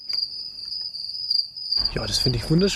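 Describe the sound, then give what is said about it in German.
Field crickets chirping outdoors in the Allgäu region, a steady, high, continuous trill that runs the whole clip, with a voice speaking over the second half. “Seit dem Frühjahr ist das Zirpen der Feldgrillen in vielen Regionen des Allgäus zu hören”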